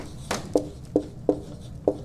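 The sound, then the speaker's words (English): Writing strokes, a few brief and scratchy, arrive at an uneven rhythm over a low, steady background hum, with no talking. “make sure I write this correctly, norma normans.”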